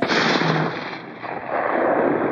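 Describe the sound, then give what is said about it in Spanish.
A firing squad's rifle volley at an execution breaks out as a dense, sustained burst of crackling noise lasting over two seconds. It dips briefly in the middle, then swells again, with no voices heard. “Preparen armas. Miguel Agustín abre los brazos en cruz. ¡Apunten!”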